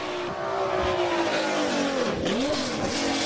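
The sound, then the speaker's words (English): A race car engine downshifting: a steady high engine whine, then quick throttle blips as it drops gears, with the pitch swooping down and up sharply. “Oh, listen to those downshifts. We're almost there.”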